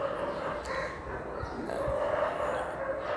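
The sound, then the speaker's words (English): Dogs bark and yip faintly at a home, under a steady background hum with no clear separate bark bursts. “Please pardon my dogs.”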